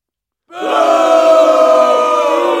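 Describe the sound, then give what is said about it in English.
An angry audience shouts together after half a second of silence, a loud, sustained massed yell of many voices that holds at full strength to the end. “The audience is getting a little angry here. They don't understand either.”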